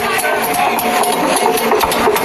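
Vehicle engines of a caravan opening anniversary festivities in Ouaké make a steady, loud mechanical rumble with a light rattle that holds level throughout.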